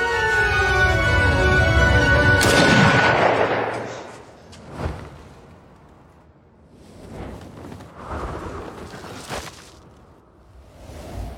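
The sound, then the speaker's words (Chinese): A single gunshot fired during a tense confrontation in a crime drama scene, a woman shooting first and hitting a wife in the arm: a sharp, loud burst cuts off music and decays, followed by quieter scattered noises. “只不过抢先开枪的竟然是姨妈”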